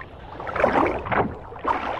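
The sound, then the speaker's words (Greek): Water sloshing and splashing as a rowboat is untied and pushed off for a night fishing trip, heard as a few uneven bursts of lapping and knocking, moderately loud, with no talk. “Να λύσω τη βάρκα? Λύσε την.”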